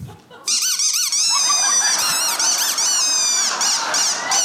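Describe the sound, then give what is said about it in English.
A squeaker toy held in a person's mouth gives a continuous run of high, warbling squeaks whose pitch wavers up and down, loud and unbroken after a brief quiet start. “now, with this squeaker in your mouth, you now have the ability to make anything you want squeak anywhere you go”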